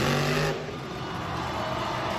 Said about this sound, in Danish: Havde du godt gættet, hvad det er, der larmer sådan? Det er da en monstertruk.